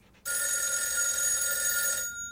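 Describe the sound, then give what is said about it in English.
A telephone rings in a boy's bedroom with one loud, continuous trilling burst of about two seconds before it cuts off. “Now, Jason's dad makes a phone call. A phone rings in Jason's room.”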